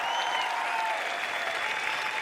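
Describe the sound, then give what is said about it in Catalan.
Audience applause for two DJs introduced at a town festival in Penedès, a sustained even wash of many hands clapping without pause, moderately loud, with a faint steady tone running underneath. “Aplaudiment per ells.”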